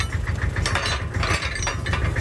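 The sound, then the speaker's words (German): Mechanical clanking of a small field railway locomotive moving up to couple to its train: a continuous metallic ratcheting rattle over a low rumbling drone, with irregular sharper knocks. “Jetzt kommt die Lok nach vorne an den Zug.”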